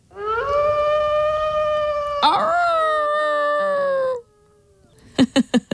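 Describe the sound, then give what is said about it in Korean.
A wolf howl used as a sound effect in a song: one long, steady, loud howling tone lasting about four seconds, followed by a few short rhythmic beats. “늑대 울음소리죠.”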